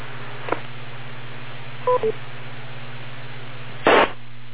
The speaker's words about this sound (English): And the courtesy tone is different. I got a feeling we're working with a different repeater.